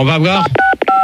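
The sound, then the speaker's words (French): Telephone keypad DTMF tones tapped out by a caller: a short voiced 'ah' leads into a few quick, bright electronic beeps of differing pitch in rapid succession. “les auditeurs, ils ont des téléphones, là, ils ont qu'à essayer de nous faire un morceau avec leur téléphone.”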